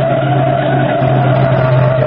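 A car skids as it is forced to the curb, its tires giving a continuous, steady squeal that holds at an even loudness for the whole stretch.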